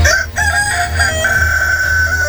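A rooster crows in one long, loud, sustained call, its strained, reedy tone holding steady without a break.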